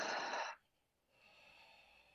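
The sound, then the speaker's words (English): A deep breath drawn in through the nose and released through the mouth during a breathing exercise with palms pressed together: a short, strong airy rush, a brief pause, then a softer, longer exhale. “closing the eyes, and then pressing the palms and taking a deep breath in the nose and out of the mouth”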